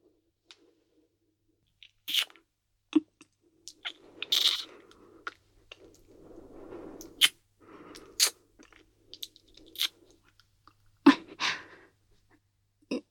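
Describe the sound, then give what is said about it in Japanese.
Kissing: scattered soft, wet lip smacks and mouth sounds with occasional breaths, coming in irregular bursts separated by short pauses, fairly quiet and without talking. “そこまで言うなら、わしとのキッスを特別に許可してもよかろう。ただし、優しく頼むぞ。”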